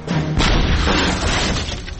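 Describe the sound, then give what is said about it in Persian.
Sinbad's ship explodes after a cannon shot, a loud crashing blast that bursts in suddenly and keeps rumbling and crackling with shattering debris for well over a second. “سانتیاگو گلوله را فایر کرد و کشتی سنباد انفجار کرد.”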